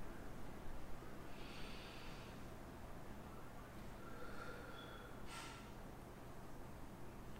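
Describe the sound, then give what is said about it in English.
A deep, centering breath taken during a worship service: a few soft, airy breaths, faint against a steady low background hiss, with no talk. “let us take a deep centering breath”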